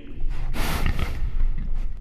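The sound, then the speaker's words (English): A person snorting dismissively: a short, forceful nasal burst of air that stands out against a rough, noisy background. “Don't snort at me so dismissively.”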